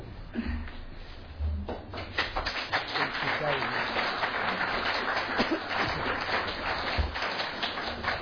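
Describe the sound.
Applause welcomes a speaker to the stage, with dense clapping that builds after about two seconds and stays steady to the end.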